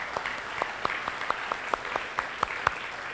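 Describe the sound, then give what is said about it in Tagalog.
An audience claps in praise of God at a Christmas-season religious gathering. The applause is faint and steady, with many evenly spaced claps in a quick, regular rhythm. “Palakpakan nga natin ang Diyos na buhay.”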